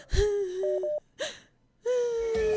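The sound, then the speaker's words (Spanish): A voice imitates crying in the Aymara style, drawing out long wailing tones broken by sharp sobbing gasps and a short pause before the lament resumes. “yo sé llorar en aymara, yo sé llorar en aymara. ¡Ya! Señora, ver. Así, así tienes que llorar, mira.”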